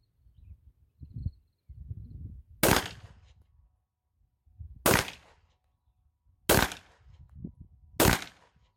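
Four sharp gunshots ring out from firearms in a video game, fired free-handed without sight adjustment. Each is a loud, crisp crack spaced roughly two seconds apart, with low muffled rumbling sounds between them.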